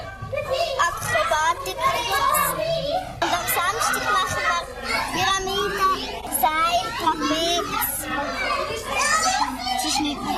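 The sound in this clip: Children practicing at a children's circus create a loud, unbroken hubbub of shouting, calling and chatter, with many young voices overlapping throughout.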